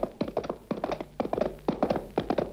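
Galloping horse hooves in a horseback ride home: rhythmic groups of sharp, hollow knocks repeat steadily and briskly at moderate loudness, with no voices.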